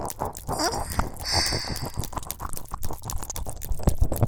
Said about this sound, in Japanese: 左耳なめなめ、左耳の奥の方まで舌が出たり入ったり、